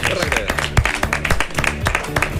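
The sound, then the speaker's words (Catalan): Applause breaks out for a quiz show contestant who has given a correct answer. It is brisk, crackling clapping of many hands, mixed with voices throughout this short burst. “És correcte, un aplaudiment per a ell.”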